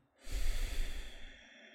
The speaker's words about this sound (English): So let's do this together. Let's exhale out.